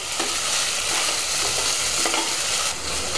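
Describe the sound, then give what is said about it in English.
Sizzling of one large chopped onion frying in a pan as it is stirred, a loud, steady hiss broken by a few brief scrapes of the stirring utensil, with no talk. “And that is the time we're going to add our onions in. I'm using about 1 large chopped onion. And stir that around.”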